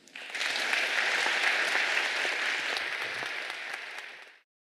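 Audience applause welcoming Professor William Nordhaus: dense, steady clapping from a crowd that holds an even, loud level for about four seconds, then stops abruptly.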